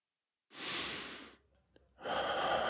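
Deep breathing from a person giving a massage in an intimate ASMR setting: one long, airy inhale, a short near-silent pause with a faint click, then a slow, breathy exhale.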